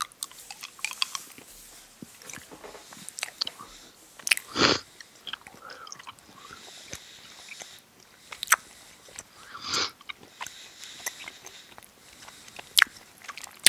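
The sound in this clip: Chewing chewy fruit candy: soft, wet mastication with a few louder crunchy bites standing out, and no talk.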